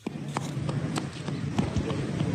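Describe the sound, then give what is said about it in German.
Quick, light footsteps of a small boy running across a town square lined with closed shops in Muzaffarabad, Kashmir, a steady patter of steps over a low background hum. “Ein kleiner Junge läuft über einen Platz, der von geschlossenen Geschäften gesäumt wird.”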